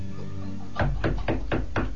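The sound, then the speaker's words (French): Knocking on a door, heard as a steady series of firm, dull knocks in an even rhythm that begins after a short stretch of low background noise. “on tape à la porte, ça tombe bien”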